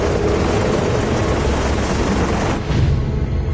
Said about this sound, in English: Lights blazing, the helicopters fly over the snow-covered mountains.